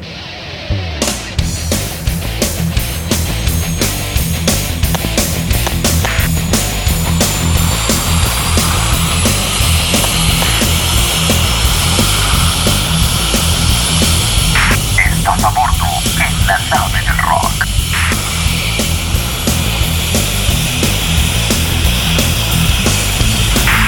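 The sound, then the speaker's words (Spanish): Aircraft taking off: a loud, steady throbbing engine roar runs unbroken through the whole clip, with a low pulsing hum underneath and a brief higher tone partway through. “Autorizado despegue.”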